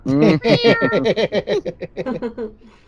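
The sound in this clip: A cat meows and yowls at mealtime in a quick run of many short, harmonic calls that start loud and gradually fade toward the end.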